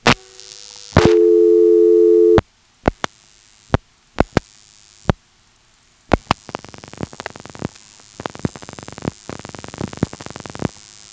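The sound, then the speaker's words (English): Telephone register sender pulsing after the number 338 is dialed. A short steady tone and a few sharp, spaced clicks are followed by rapid bursts of clicking pulses in separate groups. “As you can see, there were three pulsing events after we dialed 338. Three sort of groups of pulsing noises that sounds almost like three digits.”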